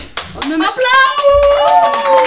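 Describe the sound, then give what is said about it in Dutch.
Clapping from several hands mixed with a sustained tonal, voice-like sound that holds steady through most of the burst, loud and continuous after a sharp first clap. “Applaus!”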